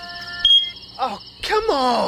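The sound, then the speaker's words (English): A smoke detector with a dying battery gives one short, high-pitched chirp, followed by a person groaning and speaking in frustration. “it's your smoke detector battery dying at 3 a.m.”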